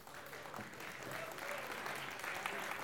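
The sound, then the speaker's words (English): Faint applause from an audience welcoming a missionary woman onto a stage: soft, steady clapping that builds slightly, with a voice faintly audible over it. “We've already welcomed your wife, so you've missed all the applause.”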